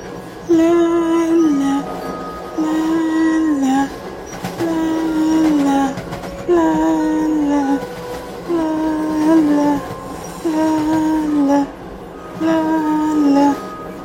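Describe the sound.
A train running on rails gives a steady low rumble, with a recurring tonal whine that comes in about seven evenly spaced bursts.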